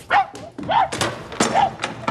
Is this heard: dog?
yes